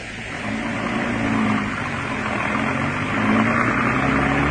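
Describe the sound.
A car engine runs steadily as the car drives off, a continuous low rumble with broad road noise that swells slightly partway through; no one talks.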